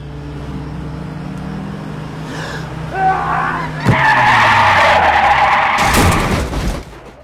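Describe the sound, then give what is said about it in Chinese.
A car's engine roars as the accelerator is floored in a crime comedy film scene. The roar grows louder and stays heavy, with a sharp hit partway through and a tire-screeching wash near the end. “只见他瞄准杜宇，踩死油门，”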